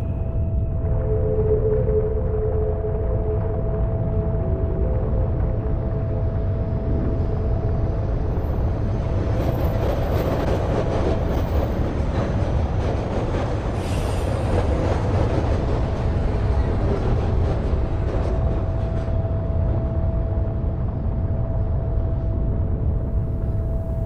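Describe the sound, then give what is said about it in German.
A train with automatic doors rumbles steadily, a low, continuous drone with a faint sustained tone that builds into a denser rattling roar midway before easing back. No voices are present. “Die Zugtüren öffnen sich automatisch.”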